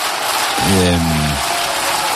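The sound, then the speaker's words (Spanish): Cheers and applause from the Socialist benches in Spain's Congress of Deputies after a prime minister's investiture vote: dense, steady clapping with a single loud sustained cheer rising out of it midway. “Ahí están los hurras y los aplausos de la bancada socialista.”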